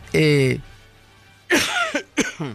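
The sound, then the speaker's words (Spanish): A person with a lingering, persistent cough makes a short voiced throat sound, then after a pause coughs and clears the throat in a few rough, uneven bursts. “me van a disculpar esta tos que no pasa”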